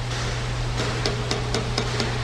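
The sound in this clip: A hammer smacks a part in, little by little, with six evenly spaced, sharp metallic strikes over a steady low mechanical hum.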